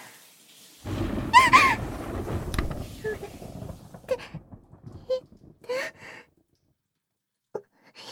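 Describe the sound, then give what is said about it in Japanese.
Thunder from an approaching storm rolls in as a deep, low rumble that swells for about two seconds and then fades, with soft sighs and a quiet breathy voice heard over it and in the lulls after. “雷近くなってる。怖いよ。”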